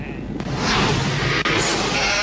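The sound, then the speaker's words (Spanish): Sheep bleat loudly and harshly within a dense, noisy wash of sound. The bleating continues with no clear pauses. “Estamos atrapados. De las ovejas. Las ovejas se están rebelando.”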